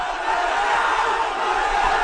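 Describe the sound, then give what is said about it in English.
A crowd of mostly young demonstrators in New Delhi, marching on Parliament, gives off a loud, continuous roar of massed voices that holds steady throughout. “Thousands of demonstrators in New Delhi attempted to march on Parliament today.”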